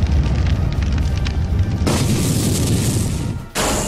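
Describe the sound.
Fire stream attack in a video game battle, a loud, continuous roaring blast that turns brighter partway through, dips briefly, then surges again to the end.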